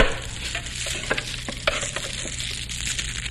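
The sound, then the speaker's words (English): Someone stirs up a wood fire: steady crackling hiss with a few sharp clicks and scraping pops scattered through, no voices. “I'll stir up the fire. Oh, let me. Yeah, I'll stir it up.”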